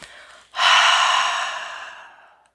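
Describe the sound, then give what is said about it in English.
A single long exhale during a guided breathing exercise follows a faint earlier breath. It starts abruptly and strongly as a breathy rush, then tapers off gradually over about two seconds. “Big inhale. Watch that light cover your body, rush down through your feet and your fingers. Exhale.”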